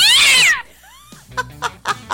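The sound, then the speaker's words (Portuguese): A cat meowing, one loud, high cry that rises and falls in pitch at the start, followed by a few faint short sounds. “Eita, o gatinho, esse gatinho não miou hoje, meio-dia 51. Bota esse gato pra miar,”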